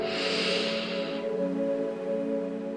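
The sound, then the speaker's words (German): A deep breath drawn in through the nose during a guided walking meditation, a soft airy hiss lasting just over a second, then fading into a steady, sustained tonal background. “Und ein letztes Mal einen tiefen Atemzug durch die Nase ein”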